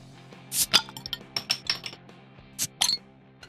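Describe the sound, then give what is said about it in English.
Beer cans cracked open: several sharp pops with bright hissing bursts and a few light clinks, set over a faint steady tonal background. “So let's go. Let's crack beers.”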